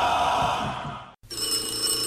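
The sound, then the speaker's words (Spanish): A telephone rings with a bright, continuous electronic ringing that breaks off briefly midway and then resumes, loud and alone with no talk. “¡Contesta el teléfono!”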